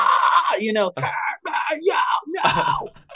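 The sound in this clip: A voice imitating a metalcore pitch scream: a strained, loud, sustained sung yell with a clear note, broken into a few phrases.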